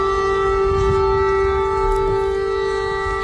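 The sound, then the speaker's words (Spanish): An air raid siren sounds during an attack on the Ukrainian capital, a loud steady wailing tone with a low rumble beneath it. “Este es el sonido de las sirenas y los ataques. Ahí suenan los bombardeos sobre la capital ucraniana.”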